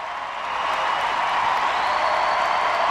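A standing audience applauds Michelle Obama with dense, sustained clapping that swells slightly at the start, then holds steady and loud.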